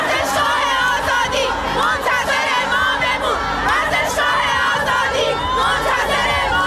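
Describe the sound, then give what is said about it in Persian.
At Azadi Stadium, a large football crowd chants slogans in a dense, continuous roar of many voices shouting together, with rhythmic rising and falling cries throughout. “گفتم یه صدایی ولی داره میاد، چی میگن ملت؟ گفت آره دارن اون بر شعار میدن، گوش کن.”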